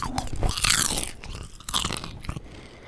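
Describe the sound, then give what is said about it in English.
Buttery, lightly salted popcorn is crunched and chewed close up, giving crisp, crackling bites with a loud opening burst, a short lull, then another round of crunching. “I'm about to eat some delicious buttery popcorn.”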